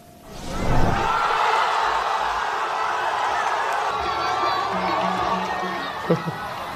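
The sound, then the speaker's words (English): People in Gaza City watching Egypt's World Cup team on giant screens raise a clamour of cheering voices that swells within the first second and then holds at a steady, busy level. “Well, people in Gaza cheered on Egypt's team as their own during their World Cup run, as you see there, even sitting on rubble to watch matches on giant screens in Gaza City.”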